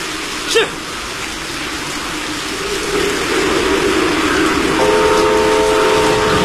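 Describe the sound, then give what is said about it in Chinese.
A train makes a test run over a repaired, previously collapsed railway section on a rainy day: a steady heavy rumble grows gradually louder, and a sustained tonal horn or whistle sounds over it near the end. “不久以后，詹天佑夜以继日赶修的铁路坍塌路段终于重新试车了。”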